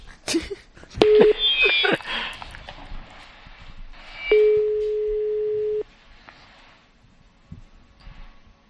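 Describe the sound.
A telephone is dialed, with a few clicks and a brief tone, followed by a steady, low-pitched busy tone held for about a second and a half before cutting off abruptly, then near quiet.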